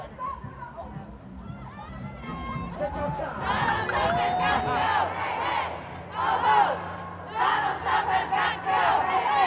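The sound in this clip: A protest crowd marching on Pennsylvania Avenue chants loudly as it passes Trump International Hotel at the old post office. Shouted chants come in repeated bursts with cheering and crowd chatter.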